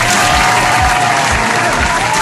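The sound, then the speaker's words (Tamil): Applause from a crowd, clapping for a player in a game, a dense, even wash of clapping that holds steady and loud throughout. “கஸ்தூரி அண்ணா சமயம் விளையாண்டாருல, அவருக்காக ஒரு கைத்தட்டல் கொடுத்துடலாம்.”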